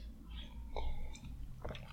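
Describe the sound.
Someone sips an alcoholic drink, making soft, quiet wet mouth sounds and a couple of faint swallowing clicks, with no talk.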